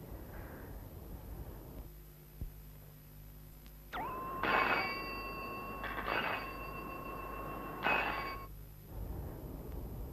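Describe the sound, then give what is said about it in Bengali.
A telephone with a handset receiver rings in a few short, faint electronic bursts, repeating at a steady pace over a low background hum. “Phone এসে গেছে, এই যে, রিসিভারটা প্রচন্ড হালকা লাগছে।”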